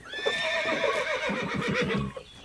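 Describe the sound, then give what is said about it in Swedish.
Two horses whinny cheerfully in a paddock as a bale of hay is tipped in, a bright, wavering neigh with stacked high harmonics running nearly two seconds, over faint rustling and a few soft thuds. “Med ett glatt gnägg böjer sig hästarna fram och börjar mumsa på höet.”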